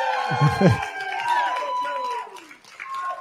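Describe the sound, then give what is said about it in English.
Live audience cheering and applauding, with a steady blend of raised voices and whoops running through about three seconds alongside scattered clapping. “Can you hear the audience in here? They're absolutely loving it. Give it up for Joe.”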